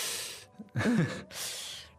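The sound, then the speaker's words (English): A person draws a few sharp intakes of breath through the teeth as a wince of hesitation. The breathy, hissing gasps come one after another, with no speech. “it might also be accompanied by perhaps a sharp intake of breath”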